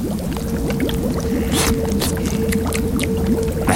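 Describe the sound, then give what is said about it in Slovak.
Precious liquid pours in a steady, continuous stream during cooking with salt and rosemary, a dense even splash and gurgle that holds at the same level throughout. “Sancho, pomôž mi. Ale nech nevylejeme. Je to vzácna tekutina.”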